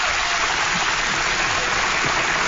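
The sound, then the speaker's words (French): Standing ovation applause, a dense, steady roar of many hands clapping at an even loudness throughout, with a somewhat dull, muffled tone. “C'était quasiment un standing ovation.”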